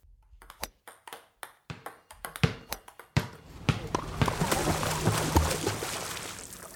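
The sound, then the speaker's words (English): Table tennis ball, part of a sequence of sports sounds, gives many quick, bright pings at an uneven rhythm. These give way to a steady, noisy wash that fills the rest. “What you probably heard was table tennis, which is also known as ping pong. Then there was basketball and swimming and tennis and golf.”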